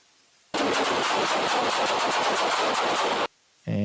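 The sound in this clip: Loud, rapid gunfire from a police officer's weapon: many shots in quick succession fuse into a dense, sustained burst that stops abruptly.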